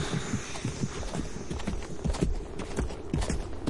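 Hooves of a horse carrying panniers clip-clop in a steady, even rhythm, with many hoof strikes over a constant low hum.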